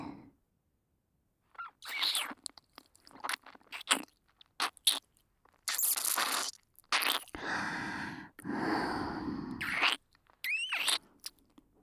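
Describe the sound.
Biting and crunching mouth sounds from an ASMR ear-eating performance: many short crunchy bursts separated by silences, with a few longer noisy stretches.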